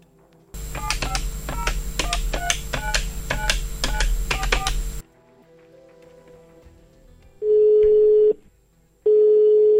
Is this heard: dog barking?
no

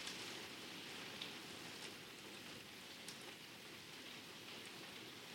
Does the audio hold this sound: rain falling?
yes

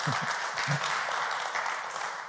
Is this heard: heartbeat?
no

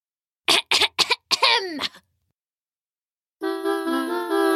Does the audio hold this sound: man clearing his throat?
yes

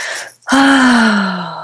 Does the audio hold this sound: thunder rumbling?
no

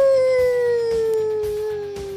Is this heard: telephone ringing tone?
no

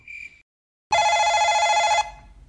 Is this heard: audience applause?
no

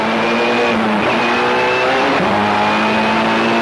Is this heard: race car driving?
yes

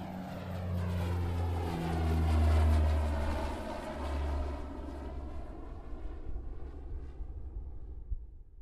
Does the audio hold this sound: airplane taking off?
yes

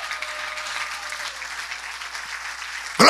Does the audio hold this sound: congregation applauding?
yes

